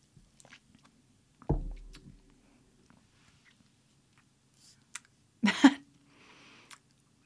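Biting and chewing while tasting something watermelon-flavoured: two short crunchy bursts separated by quiet gaps, with faint small mouth noises in between.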